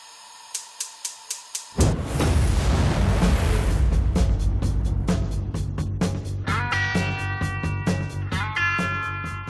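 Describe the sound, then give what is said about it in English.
Short sting for a quick-fire Pressure Cooker question segment: a quick series of ticks, then a loud booming hit that opens into a sustained rumbling bed with rapid pulsing beats and tonal notes. “So I'll get Quinn to play the little sting and we'll get into it.”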